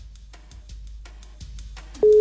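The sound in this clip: An outgoing phone call starts ringing: a loud, steady ring tone breaks in at the very end after a quiet, faintly rustling background.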